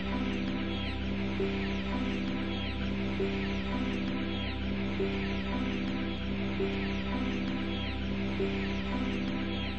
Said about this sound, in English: They're newborn chicks!